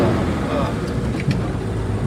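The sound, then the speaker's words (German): A rail bus with a gear lever and pedals drives along, giving a steady, dense rumble and hiss that stays at an even loudness throughout. “Also wir fahren jetzt mit dem Schienenbus, der aussieht wie ein Hund.”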